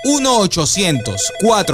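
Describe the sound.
Telephone ringing after a number is dialed, a repeating ring tone mixed with a strong voice that runs across the whole short stretch.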